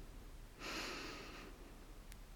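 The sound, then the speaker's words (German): A deep breath drawn in through the nose during a guided breathing exercise: one steady, airy hiss lasting about a second, moderately loud against quiet surroundings, with no talk over it. “Tief durch die Nase ein.”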